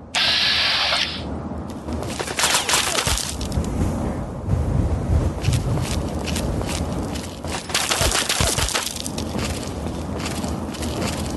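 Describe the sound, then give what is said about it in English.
Rapid automatic weapon fire from a video game rattles in dense, continuous bursts with sharp cracks, loud and steady throughout, with a brief gap near the start and no talk. “Got an automatic weapon, as you can tell.”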